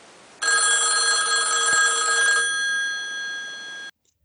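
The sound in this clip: A telephone rings for an outgoing call: one long, continuous electronic ring tone made of several bright, steady pitches, heard alone for about three and a half seconds before it cuts off abruptly.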